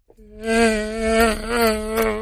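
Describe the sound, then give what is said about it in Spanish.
An African mosquito's whining buzz: a steady, sustained drone with rich overtones that holds for about two seconds, loud and alone after a brief click at the start. “El mosquito del África. ¿Qué? Es un mosquito. Bien exótico.”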